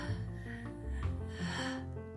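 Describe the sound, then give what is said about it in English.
A deep breath drawn in for a guided morning affirmation exercise, a soft, airy single inhale set beneath steady, gentle background music. “Now let's get started by taking a deep breath in.”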